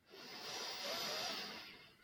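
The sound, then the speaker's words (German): A slow, deep breath drawn in: a soft, steady airy hiss that swells and then fades over about two seconds, quiet and alone. “Und noch einmal ganz tief einatmen.”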